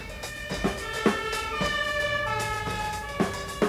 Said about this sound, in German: Er wird von einem roten Feuerwehrauto überholt.